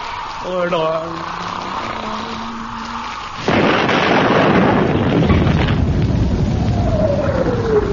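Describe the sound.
A voice speaks briefly, then a cannon fires after its fuse is lit, a sudden loud boom that rolls on as a heavy, sustained rumble for several seconds.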